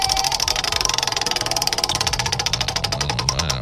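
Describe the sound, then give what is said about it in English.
Rapid ticking of a prize wheel spun in a game segment: many evenly spaced, loud clicks in a steady rhythm over a low hum. “Casey, you want to go ahead and spin that wheel? Spin it!”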